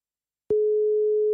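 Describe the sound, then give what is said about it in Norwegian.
A telephone ringback tone while placing a call: after a short silence, a single steady, pure mid-pitched tone switches on abruptly and holds unbroken to the end. “Han heter Mats Nilsen, og jeg tenkte vi skulle ringe han og høre hva han skal si.”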